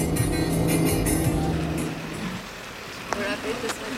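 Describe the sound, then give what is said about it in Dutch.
A car drives along narrow, snowy mountain roads in north-eastern Albania, giving off a steady low engine and road rumble. The rumble is fuller for the first two seconds and then eases to a softer drone, with a few faint clicks. “Ik rij naar Has, een gemeente in het uiterste noordoosten van Albanië. Door besneeuwde landschappen en over smalle bergweggetjes, ruim 4 uur rijden van de hoofdstad Tirana.”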